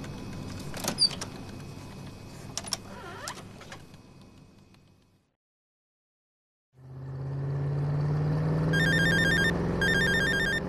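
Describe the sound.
A phone rings for a call from a foreign number, its electronic ringtone sounding in two short trilling bursts near the end over a steady low hum, after a stretch of clicks, rustling and a brief silence.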